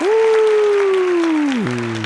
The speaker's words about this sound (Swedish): Lägg in en applåd här för editor.